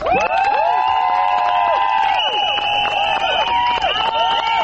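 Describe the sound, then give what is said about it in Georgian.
Crowd of women shouting and whistling at a rights protest outside parliament. A dense, loud, continuous roar of voices carries many shrill whistles that arc up and down in pitch. “აი ასეთი შეძახილების და სასტუენების ხმის ფონზე მოითხოვდნენ პარლამენტის წინ შეკრებილი ქალების საკუთარი უფლებების დაცვას.”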